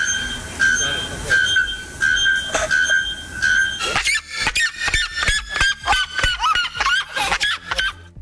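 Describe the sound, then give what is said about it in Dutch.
Extremely loud bird calls from a species measured at about 120 decibels, roughly as loud as a chainsaw. Repeated ringing, honk-like tonal notes give way to a rapid series of sharp, loud calls. “Volgens onderzoekers halen de vogels ruim 120 decibel. Dat is ongeveer net zo hard als een kettingzaag. Wetenschappers stonden op zo'n 20 meter afstand en voelden de druk op hun trommelvliezen, meldt de Volkskrant. Dat klinkt ongeveer zo.”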